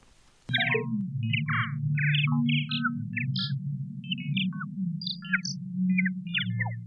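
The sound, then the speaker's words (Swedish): Electronic sound art interpreting a US president's Twitter messages, with a brief click followed by rapid, irregular high bleeps and chirps that jump in pitch over a steady low droning hum. “det här låter möjligen lite som roboten R2-D2 i Stjärnornas krig-filmerna, men det är något helt annat. Det är en ljudtolkning av USAs president Donald Trumps”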